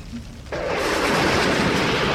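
Thunder from lightning over a desert bursts in suddenly and holds as a loud, dense, steady rumble.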